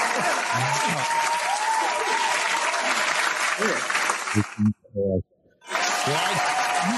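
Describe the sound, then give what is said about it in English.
Studio audience applause and cheering on a sports talk show, a dense, loud wash of clapping and shouts with voices over it, briefly dropping out before surging back. “But you know what? The fans are going crazy. If I can get the studio audience.”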